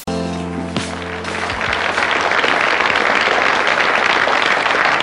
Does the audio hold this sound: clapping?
yes